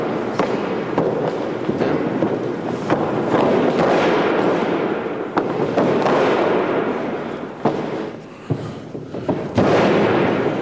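Wrestlers slam onto a ring mat during training, giving a few sharp, booming impacts over a constant loud background roar.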